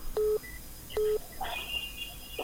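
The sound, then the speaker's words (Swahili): Telephone line tones sound as a listener's call comes in on a radio phone line: two identical short electronic beeps, then a higher wavering tone over faint line static. “Tunazidi kusonga mbele na msikilizaji anaendelea kupiga simu hapa.”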